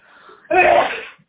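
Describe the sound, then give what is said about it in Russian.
A single sharp sneeze from someone with a sore, rasping throat: a faint breathy intake, then one loud, abrupt burst that fades quickly. “Опять чихают. Видимо, от горла.”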